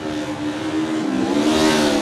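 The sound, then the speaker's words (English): A Honda CB500 racing motorcycle engine revs hard off the start line, a loud, continuous, buzzy mechanical roar with a strong steady tone that holds without a break. “Oh, absolutely ringing the neck of that thing off the line. The Steadplan Racing Honda CB500 4.”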